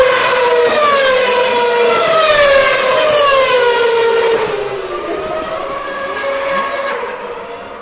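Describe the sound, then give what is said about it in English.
A McLaren Mercedes Formula One car races toward the finish line at the 2012 Belgian Grand Prix at Spa. Its loud, high-pitched engine whine sweeps downward in pitch as it passes, with no voices. “2012 Belgian Grand Prix, Jenson Button, driving a McLaren Mercedes, approaches the line.”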